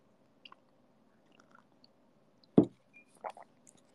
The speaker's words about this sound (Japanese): ハンバーグ食べます。